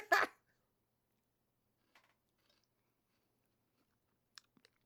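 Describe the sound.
People chewing a dessert garnished with Lucky Charms marshmallows: one short, loud, crunchy bite at the start, then a few faint clicks of chewing in near silence.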